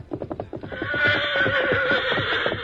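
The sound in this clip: A horse named Victor, after hard running, with rhythmic hoofbeats clip-clopping at first, then breaking into a loud, long, wavering neigh that carries on to the end.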